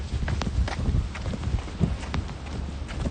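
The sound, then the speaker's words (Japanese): Light jogging footsteps outdoors, many quick, evenly spaced thuds in a steady running rhythm with no voices. “今日は軽くジョギングって感じなの”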